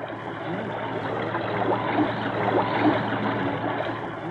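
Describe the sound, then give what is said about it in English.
Steady rushing and gurgling of flowing water from a narrow, shallow river about 10 feet wide and 18 inches deep on the US–Mexico border. A continuous, dense wash with gentle swells and no voices. “This is the sound of water.”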